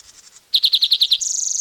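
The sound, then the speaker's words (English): Bird cry: a few faint chirps, then a run of seven sharp, loud, high-pitched notes that give way to a rapid, buzzy trill, with no voices. “The cry is possibly by another bird.”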